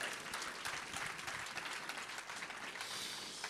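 A church audience applauds to acclaim the Lord for a woman being honoured. The clapping is dense and steady, forming a soft, continuous wash throughout.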